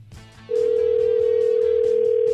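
A telephone ringback tone sounds on an outgoing call. It is a steady, loud, single-pitched tone that starts after a quiet half-second and continues unbroken to the end.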